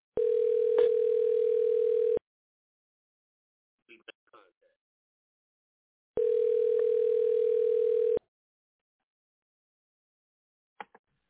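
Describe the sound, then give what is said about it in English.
A telephone line rings after a number is dialed: two long, steady, mid-pitched tones of about two seconds each, separated by a pause, with a few faint clicks in the gaps. “No, we're dialing.”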